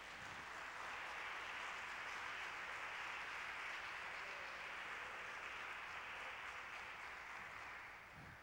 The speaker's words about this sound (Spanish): dale un aplauso a Jesucristo